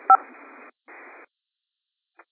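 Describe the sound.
Telephone keypad tones from pressing star 6 to unmute on a conference call: one short, sharp tone burst, then narrow-band phone-line hiss that stops and restarts, and a faint final blip.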